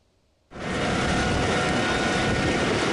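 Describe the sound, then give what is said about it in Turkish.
Firefighting aircraft sent from Turkey to battle forest fires near Bordeaux, France: after a brief quiet moment, a loud, broad engine roar starts abruptly and holds steady and powerful to the end. “Fransa'da alevler Bordo kentine yaklaşırken Türkiye'den de yangınlarla mücadele için iki uçak bölgeye sevk edildi.”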